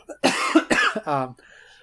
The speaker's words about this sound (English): sorry, I'm not getting choked up. I have something in my throat.